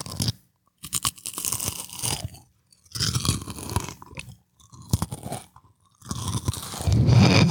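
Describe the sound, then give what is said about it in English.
Crackers being eaten for ASMR, close, crisp crunching and chewing in several bursts separated by short quiet pauses, with no talk. “Ooh, are we gonna eat crackers ASMR?”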